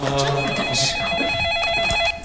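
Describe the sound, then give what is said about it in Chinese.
A telephone rings with an incoming call: a loud electronic ringtone of steady, warbling tones that plays continuously for about two seconds and then cuts off. “我先说就是来电话了。 谁的电话？”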